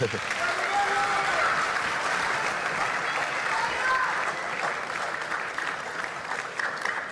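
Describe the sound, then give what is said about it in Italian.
Audience applause on an Italian talk show, a steady wash of clapping from many hands that carries on evenly for around seven seconds. “Qua ci sta l'applauso se volete,”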